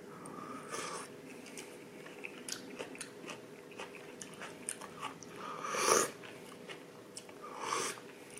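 Someone tastes food they just cooked, with faint, moist bites and chewing. A louder crunchy burst comes partway through before the chewing settles again.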